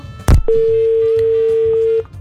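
A sharp click, then a steady mid-pitched tone holds for about a second and a half as a telephone call cuts off, with faint background noise under it.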